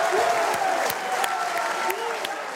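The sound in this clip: Crowd of supporters cheering and applauding after a narrow presidential election result is announced, a dense steady wash of clapping with scattered whoops and shouts, loud throughout with no pause.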